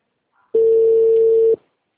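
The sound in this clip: A single steady ringback tone from an outgoing phone call sounds for about one second, clear and alone, with no voices.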